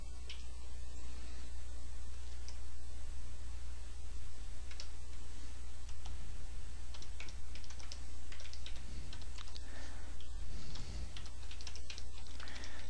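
A name is typed on a computer keyboard as many quick, light key clicks in an uneven rhythm, over a steady low hum.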